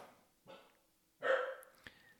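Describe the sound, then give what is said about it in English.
An active miniature Australian Shepherd barks faintly in the background, a few short, separated barks with the middle one loudest, followed by a brief click. “you can hear my dog barking in the background. Sorry about that. She's kind of an active miniature Australian Shepherd.”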